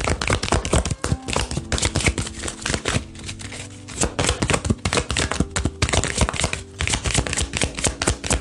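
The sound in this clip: An oracle card deck is shuffled and handled as a card is drawn. Dense, rapid papery clicks and riffles run loudly and continuously for about eight seconds, with brief dips.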